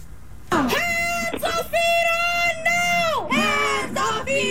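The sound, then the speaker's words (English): A protest crowd of hundreds shouts on a San Francisco street at the waterfront Embarcadero Plaza, with loud, sustained chanted cries in a few long unison phrases separated by brief breaks. “What we're going to do right now is we're going to go to some sound from that protest that Dick Becker talked about.”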